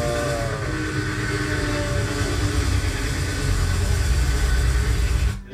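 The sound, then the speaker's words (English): An old black train rumbles past in a loud, steady roar with a low mechanical drone and a faint tonal hum, holding even throughout before cutting off abruptly at the end. “See, there's the train.”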